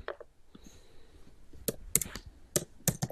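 A computer keyboard is typed on to search for a word: faint, scattered clicks of keystrokes, a few quick taps spaced irregularly against a quiet background.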